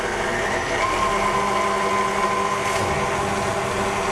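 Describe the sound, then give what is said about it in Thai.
An electric mixer beats a mixture at low speed, giving a steady, even whirring hum with a faint thin whine above it, constant in level throughout with no talk. “เพราะฉะนั้นเราก็ใส่ลงไปแล้วก็ตีนิดเดียวนะครับเบา ๆเพราะอันนี้มันขึ้นละไม่ต้องใช้ความเร็วสูงเนาะ เดี๋ยวเราจะตีอีกรอบนึงครับแล้วก็ค่อยๆขยับขึ้นครับ”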